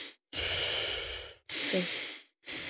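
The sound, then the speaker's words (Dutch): Deep belly breathing taken in quick succession: long, hissing, airy breaths follow one another with only brief silent gaps between them, soft and close, with no voices. “Dus ik doe dan 50 of 60 diepe buikademhaling. Ook snel achter en elkaar.”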